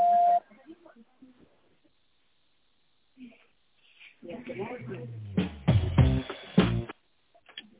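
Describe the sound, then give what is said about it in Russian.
A short, steady, fairly loud beep from a company's automated telephone answering system, heard alone at the very start, followed by a silent gap and then a voice talking over the line. “Пожалуйста, после звукового сигнала в тоновом режиме наберите добавочный номер абонента или дождитесь ответа секретаря.”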